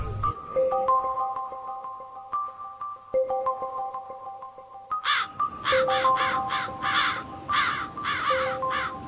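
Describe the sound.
Crows caw in a rapid series of harsh, loud calls that follow a soft, sustained tonal melody.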